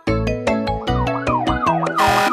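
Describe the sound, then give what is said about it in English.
A fire truck siren sound effect in a children's song wails in repeated rising and falling sweeps over steady, rhythmic musical beats, ending in a brief burst of hiss. “The siren on the fire truck goes wah, wah, wah.”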